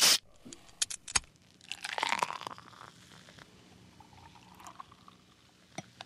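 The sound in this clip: A beer can is cracked open and poured. A sharp metallic snap comes first, then a few faint clicks and knocks, and a brief fizzy pour follows before quieter handling noises.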